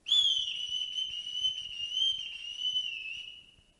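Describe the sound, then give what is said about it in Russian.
A person whistles outside on the street, holding one long, steady, high note for about three seconds that wavers slightly before fading away, with faint low thumps beneath. “Что это? Кто-то свистит на улице”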